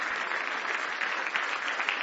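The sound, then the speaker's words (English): A church audience, on its feet, claps hands in praise: a thick, continuous patter of many clapping hands at moderate-to-soft level, sustained evenly with slight swells throughout. “Let's stand to our feet tonight. Give the Lord a big hand clap of praise.”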